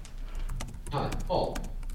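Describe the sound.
Typing on a computer keyboard: a rapid run of many sharp, clicking keystrokes at an uneven rhythm, fairly loud and continuing through the whole clip.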